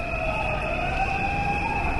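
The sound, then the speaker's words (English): Sirens and horns blare from striking finance ministry workers protesting outside, a loud, sustained wail with a lower steady tone under a higher one, continuing without pause. “Outside, Venizelos' own angry, striking finance ministry workers tried to drown out their boss with honking horns and sirens.”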